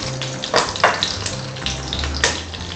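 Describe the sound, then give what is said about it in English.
Whole spices (cinnamon, cardamom, cloves and bay leaves) sizzle in hot ghee or oil, a steady hiss of frying with a few sharper crackles and pops. “So what I'm going to do is heat the ghee or oil, and then add in the cinnamon, cardamom, cloves, and bay leaves, and fry this.”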